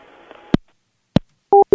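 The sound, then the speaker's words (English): Two sharp clicks, then two short steady beeps of a telephone tone after a store phone's call is cut off with the employee hang-up button. “If I was there in person, I would throw him out of the store for touching the employee hang-up button.”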